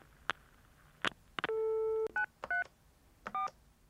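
Telephone keypad tones as a number is dialed: a few sharp clicks, then a long steady tone, then several short beeps of differing pitch against a quiet background.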